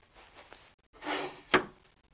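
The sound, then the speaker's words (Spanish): A drawer in a guest room is slid open and then pushed shut: a soft wooden scrape, a longer sliding rasp, and a sharp closing knock at the end, all fairly quiet with no voices. “Abre un cajón. Mira al interior y lo cierra.”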